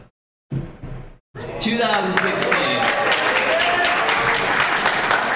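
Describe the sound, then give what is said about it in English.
Applause from a live audience at C2E2 follows a brief voice and a moment of silence. The dense, steady clapping holds loud and even through to the end. “I was going to ask, it says in my notes, ask audience who has Pokemon. But from the round of applause, yes.”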